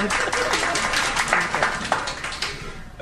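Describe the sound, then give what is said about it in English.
Applause from a small studio audience on a quiz show: a brief burst of scattered clapping, fairly even in loudness over a few seconds and fading slightly toward the end. “You can applaud. It's okay.”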